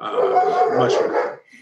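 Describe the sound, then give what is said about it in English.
A couple of German shepherd dogs barking at someone in the driveway: loud, dense, overlapping barks that run almost without a break before cutting off abruptly. “obviously somebody's in the driveway. There you go. We call it the dog bell. It's a couple of German shepherds,”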